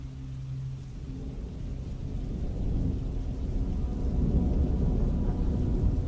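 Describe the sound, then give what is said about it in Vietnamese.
Thunder rumbles over a river during a fierce lightning storm, a deep continuous roll mixed with rain that swells steadily louder toward the end. “Trên thiên không, sấm sét đan xen chẳng chịt, như là tạo thành tấm lưới sét bao phủ lấy toàn bộ đoạn sông này.”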